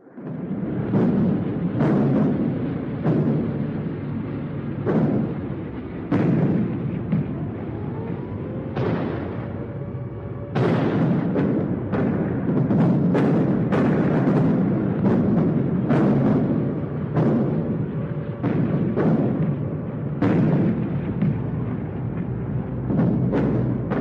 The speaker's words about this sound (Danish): Det er så første luftangreb. Der er 6 bombeeskadriller med 244 britiske Lancaster,